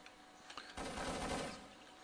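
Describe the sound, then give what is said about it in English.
Automatic fire from an AK-103 rifle in a video game, a faint rapid burst of shots lasting under a second after a couple of soft clicks, then trailing off quietly. “AK-103 fire. No harm, no foul.”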